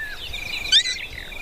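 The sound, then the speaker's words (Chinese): High, thin chirping of three hungry hatchlings begging their mother for food in the nest, a continuous run of overlapping calls with one louder, sharper burst near the middle. “当一位捕食者经过他们的巢穴时，他们正在向妈妈索要食物。”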